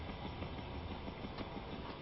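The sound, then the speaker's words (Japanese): A train arriving at its terminal station gives a faint, steady rumble of wheels and running noise that stays even throughout, with no voices heard. “ご乗車お疲れ様でした。まもなく終点の新大阪です。まもなく終点新大阪に着きます。”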